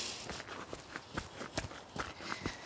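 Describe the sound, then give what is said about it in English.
Faint footsteps of winter boots walking carefully downhill on a slippery path: a quick, fairly even series of many soft thuds and scuffs, with no voices. “I dug out some winter boots today, and I'm just making sure I don't slip on my bottom as I come down.”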